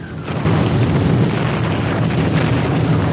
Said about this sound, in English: Lawrence's men adjust their masks and don flippers as artillery fire sends up columns of spray all around them.